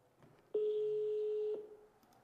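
Ringback tone of an outgoing telephone call left unanswered: a single steady, mid-pitched tone lasting about a second that starts and stops abruptly, followed by faint line noise.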